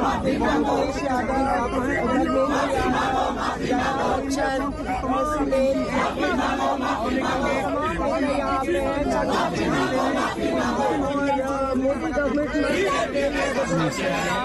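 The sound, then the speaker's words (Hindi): Crowd noise from protesters gathered at a BJP office: a dense, loud and steady hubbub of many voices that continues without a break. “और यहाँ BJP के दफ्तर मिलने में कहाँ मिलेगा चंदा, कहाँ मिलेगा बीजेपी के दफ्तर में, इस तरीके के नारे लगाए जा रहे हैं।”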